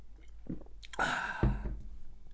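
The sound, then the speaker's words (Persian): Faint mouth sounds of someone drinking Coca-Cola Zero: a brief slurping sip near the middle, then a soft low swallow, with quiet rustle around it and no talk. “اگه براتون سوال پیش اومد که من چی دارم مینوشم کوکاکولا زیرو هست”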